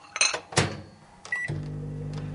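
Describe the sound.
A microwave oven is loaded and set running on a low setting to melt something. A few clunks and a short beep come first, then a steady low hum continues to the end.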